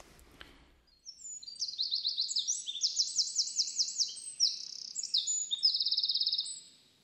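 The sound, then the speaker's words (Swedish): A Eurasian wren sings a long, loud, high-pitched song of rapid trills and warbles. It lasts about six seconds and ends in a fast, rattling trill. “Och vi kan ju lyssna på en fågel som jag har snubblande nära blandat ihop det med Lundsångaren, nämligen gärdsmygen. Så här låter den.”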